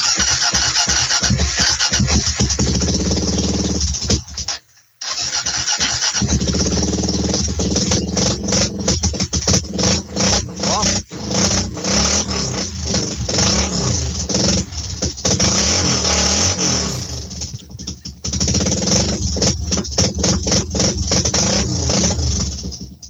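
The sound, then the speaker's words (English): A Harley motorcycle with straight pipes revs hard, giving a loud, rough, sustained roar that drops out briefly twice before surging back. “it's got a lovely pop to it. Do you want to hear it? Yeah, I do, as a matter of fact. And by the way, does your Harley have straight pipes? Yeah, it does. Yeah. Okay, I'm going to do it now. Here we go.”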